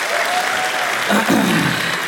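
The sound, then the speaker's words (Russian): Applause from the audience at a Russian Comedy Club stage show as performers are introduced for a sketch, a continuous, fairly loud burst of clapping with an even texture. “На сцене Костя Бутусов и Никита Никитин. Случай в одной из российских поликлиник. Под ваши аплодисменты.”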